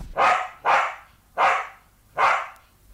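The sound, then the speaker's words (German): A white terrier barks four times in a steady rhythm, with short, sharp, mid-pitched barks evenly spaced and fairly loud against a quiet background. “ein Hund, ein weißer Terrier, der auf den Namen Nipper hörte”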